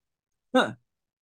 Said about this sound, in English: I took a breath and was drinking at the same time.